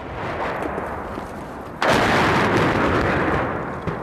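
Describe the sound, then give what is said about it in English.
Artillery fire in a war of attrition, a continuous low rumbling roar that surges abruptly with a heavy boom partway through and then slowly fades. “But what makes it doubly, trebly worse is, of course, the rumble of artillery fire.”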